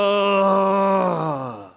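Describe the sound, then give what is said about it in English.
A voice imitates a deep, guttural groan from the gut: one sustained, rich moan that holds steady, then sinks in pitch and fades out within two seconds. “the groan from the bowels of your being.”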